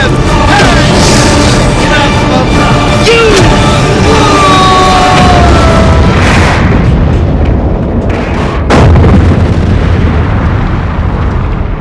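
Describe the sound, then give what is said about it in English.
Weapons fire and explosions aboard the starship Enterprise under attack in Star Trek: dense rumbling blasts and bursts with whistling tones, and a sharp, loud hit near the end. “This is the Enterprise. We are under attack. Fire, Mr. Scott.”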